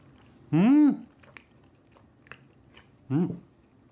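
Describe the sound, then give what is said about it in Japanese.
Soft chewing of thick, fluffy grilled eel from an eel-on-rice box: faint wet mouth clicks and smacks between two hummed murmurs of enjoyment. “ふわふわ、まずうなぎだけいただきたいと思います。”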